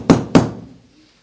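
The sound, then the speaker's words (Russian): Two knocks on a door, sharp thuds about a quarter second apart, each trailing off in a short fading ring, with nothing else heard. “А за дверьми кто-то стучал.”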